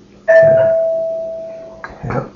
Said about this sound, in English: While we had tape stopped for a doorbell